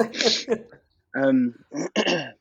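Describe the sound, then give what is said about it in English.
Throat clearing: a rough, gravelly burst of rasping noise, followed by a person speaking. “Sorry, I've got something in my throat.”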